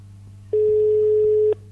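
A telephone call rings: a single steady ring tone lasting about a second, over a low, constant hum.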